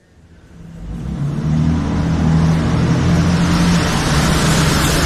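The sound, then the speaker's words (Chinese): A car engine swells from quiet to a loud, steady rumble as the car drives off, then holds an even, droning road noise to the end, with no voices. “好的，还是我开车。”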